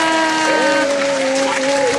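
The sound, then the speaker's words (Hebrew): Audience applause at a quiz game show: dense, steady clapping that fills the whole stretch at an even level, with a sustained tone running underneath. “איזה כיף זה, כפיים.”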